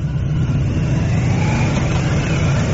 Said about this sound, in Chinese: 现在从钓鱼台国宾馆驶出的友谊勋章获得者乘坐的车辆准备汇入礼宾车队。